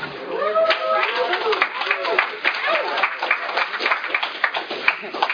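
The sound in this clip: An audience at a Tulare County meeting applauds to welcome the main speaker, with dense, continuous clapping mixed with voices throughout.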